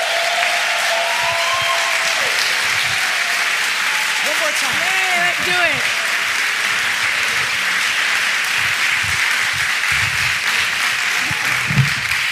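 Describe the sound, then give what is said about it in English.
Audience applauds warmly to welcome a preacher coming up to preach at a church service, a loud, steady wash of clapping throughout, with a voice briefly audible over it. “we want to give them the biggest, warmest ovation. And so would you join me in giving Nicole a Queens Boulevard welcome as she comes up to preach to us today?”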